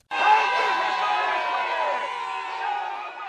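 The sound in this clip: Independence supporters celebrate outside the Scottish parliament, a loud crowd roar of cheering voices that starts suddenly and stays high for the whole stretch.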